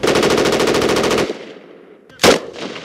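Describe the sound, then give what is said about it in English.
Machine gun fire during soldiers' training: a loud, rapid burst of evenly spaced shots lasting over a second, a short pause, then one more brief, sharp burst. “These soldiers are upgrading their machine gun skills. They are working in small groups now, learning the basics of trust and discipline.”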